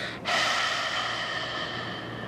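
A single long breath during a guided breathing exercise: after a brief quiet moment, a steady airy rush of air begins and holds evenly to the end. No one speaks.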